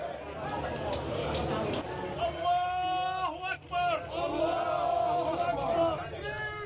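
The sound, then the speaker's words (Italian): Crowd of mourners in a funeral procession for a 26-year-old woman in Nablus, West Bank: a thick mass of raised, overlapping voices, with some long held calls standing out above the steady murmur. “Siamo in Cisgiordania, a Nablus. Quello che sentite è il corteo funebre per una ragazza di 26 anni.”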